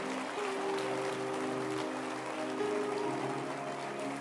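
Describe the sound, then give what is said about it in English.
A church audience claps hands during worship, making a quiet, dense, steady patter that continues evenly throughout. “Your hand clap is good.”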